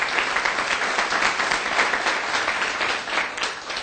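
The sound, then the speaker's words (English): A church audience at an evening service applauds after worship, a dense, steady patter of many hands clapping at an even level for about four seconds. “Did you enjoy the worship? Amen. Let's give the Lord a big hand, please.”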